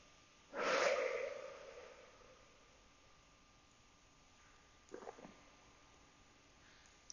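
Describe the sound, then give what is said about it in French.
Calm breathing, in through the nose and out through the mouth, during a relaxation exercise: one audible, airy breath near the start, then a long quiet stretch and a brief, faint second breath. “Une dernière fois, j'inspire tranquillement par le nez et j'expire lentement par la bouche.”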